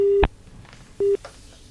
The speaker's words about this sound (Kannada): ಕರೆ ಕಟ್ ಆಗ್ಲಿಕ್ಕತ್ತಾವ ನೋಡು.